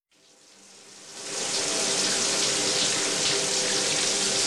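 Water running from an overflowing tank: a broad rushing gush that builds over the first second, then holds as a steady, loud, continuous flow.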